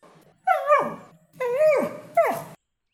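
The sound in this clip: A dog barking and whimpering in three whining yelps, each sliding downward in pitch, the last one shortest, with no other sounds.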